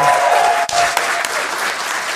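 A live convention crowd at Star Wars Celebration 2023 breaks into applause, a strong, sustained burst of many hands clapping with one brief dip in level early on before it continues steadily.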